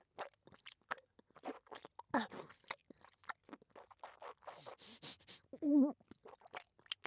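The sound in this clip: Chewing on something that melts in the mouth and tastes foul: many faint, irregular crunching and wet biting sounds with soft scrapes between them, with no talk.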